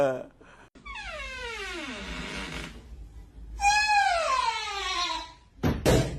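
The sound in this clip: A creaky door lets out two long, wavering squeals, the first sliding downward in pitch, and a short sharp knock comes near the end.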